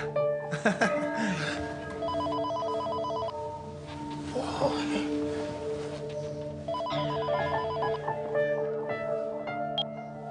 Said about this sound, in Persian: من تلفن جواب بدم.